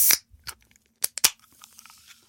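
A blood orange drink can is pried open with fingernails right at the microphone: a few crackly clicks and scratches, then two loud, sharp snaps close together, trailing off into faint rustling.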